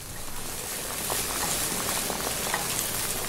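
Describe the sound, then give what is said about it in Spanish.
Food fries in hot oil in a pan as the pieces turn golden brown and puff slightly, a faint, steady crackling sizzle with scattered tiny pops throughout. “y vamos a esperar a que se frían bien. Van empezando a agarrar un colorcito así medio como cafecito, ya bien frito, y pues ya nomás les vas a estar dando vuelta y vuelta.”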